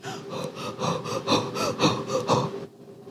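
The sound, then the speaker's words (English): A voice imitates the heavy breathing of a woman in labor in a labor room, a rapid run of loud, breathy panting huffs in a steady rhythm that stops abruptly into silence. “And when you're in labor, it's like you're catching your breath. It's as if your life is not sure if you will still live. Ganto ang hininga mo sa labor room.”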